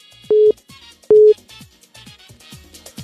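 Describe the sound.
A telephone line tone sounds while a radio show connects a caller. Two short, steady, mid-pitched beeps come about a second apart, followed by quieter, fainter sounds.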